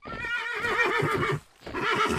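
A tall black stallion neighs in two bursts: a loud, long whinny with a shaking, wavering pitch, a brief pause, then a second, shorter whinny.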